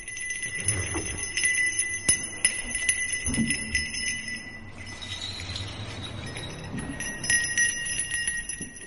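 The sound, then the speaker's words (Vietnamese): Bells ringing with sharp knocks on a small wooden fish drum, struck by a ritual master walking along a riverbank. Bright, high, shimmering bell tones sound continuously while a few crisp wooden taps cut through at irregular moments. “tay thầy chốc chốc lại gõ lên tiếng mõ con con vang vọng, tay kia rung lên những tiếng chuông nghe vang vọng cả khúc sông.”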